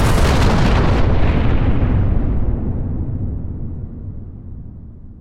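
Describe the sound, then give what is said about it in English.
A massive roaring explosion from a uranium atom bomb dropped by a B-29 bomber over Hiroshima. It opens with a loud, dense rumble that fades steadily over about five seconds, its hiss dying away first and leaving a low, fading rumble. “At 8:15, the American B-29 bomber, the Enola Gay, drops a uranium atom bomb over the city of Hiroshima. It causes a blinding white-blue flash.”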